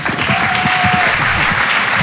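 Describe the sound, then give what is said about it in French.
Audience applause for a comedian at a comedy club, with dense, steady clapping from a crowd that stays loud and even for the whole short stretch. “On peut l'applaudir très fort.”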